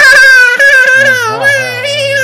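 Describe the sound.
A voice imitates tiny creatures whining as the firing sound of a video game gun: one loud, continuous nasal whine with a wavering pitch, lasting about two seconds.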